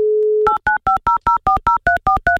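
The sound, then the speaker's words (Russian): Telephone line tones while placing a call: a steady single-pitch dial tone, then a quick, evenly spaced run of many short two-pitch keypad dialing beeps, loud and clear with no voices. “я прямо сейчас открываю линию, звоню тебе и надеюсь, ты возьмешь трубку.”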